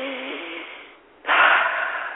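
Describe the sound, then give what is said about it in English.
A deep breath: an airy, noisy intake of breath, then a short pause and a stronger, louder rush of breath out that holds steady to the end. It is heard alone, with no talk. “Okay, let me take a deep breath.”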